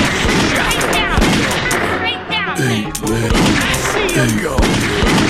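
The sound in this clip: Gunfire crackles in many sharp, overlapping shots, mixed with agitated voices talking and shouting throughout.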